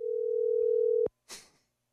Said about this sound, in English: If you don't know what that is the sound of a lark. Those little things that you know. Large people or old people have to ride on, and when it goes in reverse.